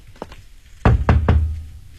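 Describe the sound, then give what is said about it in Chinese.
Knocking on a door: two faint, quick taps, then a pause, then three loud, heavy knocks in fairly quick succession that ring out briefly. “你敲门。”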